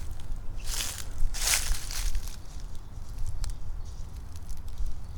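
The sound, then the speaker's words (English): A rabbit runs through dry leaves, making a few brief crackling rustles over a steady low rumble, then quieter scattered patter. “Something's running around down there. Now there's the bunny goes down.”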